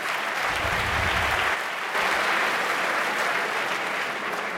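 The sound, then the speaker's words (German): Studio audience applause at a geek-trivia quiz show, a loud, dense, sustained clatter of many hands with a brief dip near the middle before it resumes at full strength. “Die letzte Runde hat euch ziemlich geschafft, dass ihr dafür so klatscht, oder?”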